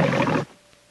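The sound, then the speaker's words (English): A thick-maned lion roars in a film studio logo, a short, loud, throaty burst lasting under half a second that cuts off abruptly into near silence. “Now, a logo of a thick-maned lion framed by a ring of film, Metro-Goldwyn-Mayer.”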